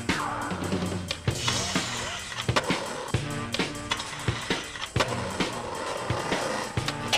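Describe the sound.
Skateboarding from the skate video Muska Fulfill the Dream: rolling wheels with many sharp board pops, slaps and landing clacks at an uneven rhythm, over steady background music.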